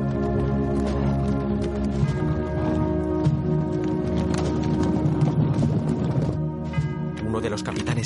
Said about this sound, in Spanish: La caballería francesa se reorganiza con sus abanderados en el centro. Avanzan al trote.